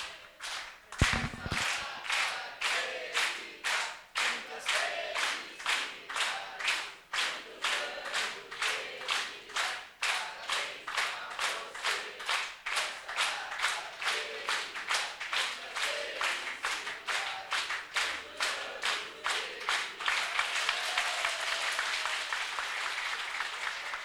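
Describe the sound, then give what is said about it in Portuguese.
Rhythmic clapping from a crowd at a formal ceremony honouring a man on his 83rd birthday: many even, brisk claps in a steady beat, with the crowd noise growing denser toward the end. “Então, nós vamos cantar os parabéns.”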